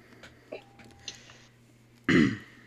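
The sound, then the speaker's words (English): A player at a tabletop role-playing game session clears their throat in one short, gruff burst near the end, preceded by a few faint clicks and soft stirrings. “Let me clear my throat.”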